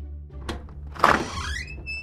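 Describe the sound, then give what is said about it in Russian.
A door creaks open: a dull thump, then a rising, squealing creak of the hinge, fairly faint and heard without voices. “Дверь со скрипом отворилась”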